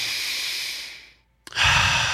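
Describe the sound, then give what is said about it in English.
A deep breath taken alone: a long airy hiss fades out, a brief pause and a small click follow, then a second loud rushing breath begins. “Take a deep breath.”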